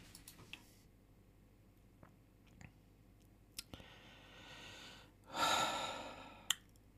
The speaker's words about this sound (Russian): ты очень тяжело дышишь.